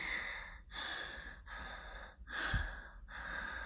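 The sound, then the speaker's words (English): Panting as a person catches their breath: about five rasping, breathy breaths in a steady rhythm, fairly faint, with no words spoken. “Give me a second to catch my breath.”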